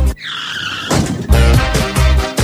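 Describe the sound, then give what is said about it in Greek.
Motorbike engines rev at full throttle: a loud, high, whining tone first, then a few pulsing, roaring bursts with squeal-like tones. “Στη μηχανή ανέβα. Και έχουμε φουλάρι τις μηχανές.”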